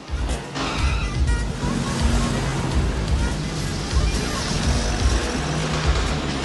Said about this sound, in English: Victor watches the vehicle drive away, then crosses the street back to his waiting accomplices watching from the car.